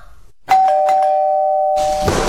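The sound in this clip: A doorbell rings: a bright electronic chime starts with a few quick struck notes and then holds a sustained tone until other noise takes over.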